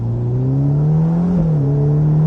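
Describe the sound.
A Ferrari Portofino M's 611-horsepower V8, fitted with gasoline particulate filters, revs in a deep, bassy, slightly muffled steady drone whose pitch creeps gradually upward, dips briefly, then settles and holds.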